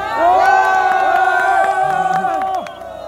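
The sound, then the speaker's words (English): Onlookers cheer and whoop loudly at a mine dig in the Democratic Republic of Congo, where a miner digs with his hands into red clay soil; many voices rise and fall in a sustained, excited roar. “What you're hearing is the sound of onlookers cheering as a miner in the Democratic Republic of Congo is desperately digging with his hands into a huge amount of red clay soil,”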